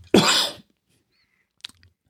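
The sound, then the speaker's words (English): A single loud, harsh cough bursts out, followed by silence and a couple of faint brief clicks. “I'm going to cough.”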